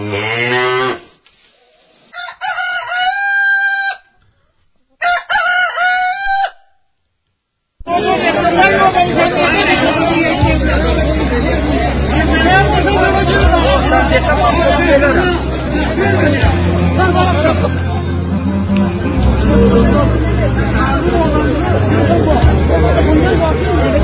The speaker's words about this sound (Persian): این صدایی که میشنوید صدای صف خرید مرغ در پارساباد است